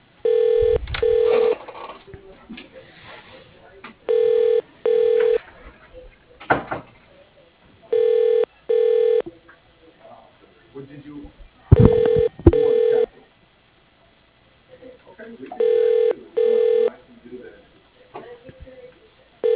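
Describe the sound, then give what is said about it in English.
Electronic telephone tones on a call to an office extension come in five double bursts spaced a few seconds apart, with quieter clattering sounds between them. “To reach Steve Wilson, dial 102. Please wait a moment.”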